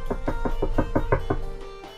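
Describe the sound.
Knocking on the door of a house: a quick, even run of hollow knocks at a steady rhythm, clearly audible and then stopping, with a faint continuous tone underneath.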